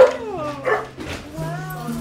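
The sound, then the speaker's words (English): Dogs at a small two-story house bark and yip as visitors arrive, giving several short, high, whining barks with people talking alongside them. “The dogs are coming.”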